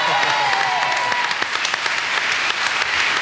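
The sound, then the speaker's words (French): Studio audience applause at a televised comedy anniversary show in France: sustained, dense clapping with scattered sharper claps. A brief tonal voice sounds near the start, then the applause continues alone. “Et on peut l'applaudir.”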